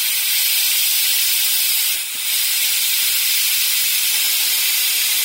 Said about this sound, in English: By the way, I'm still governing the pressure here. Governor. Wow, there's a lot of steam in here, man.